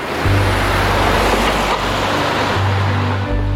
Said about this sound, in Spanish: Ahora Choco Salvaje pasará en la cajuela del carro de Pozoles y va junto a un tal Fermín.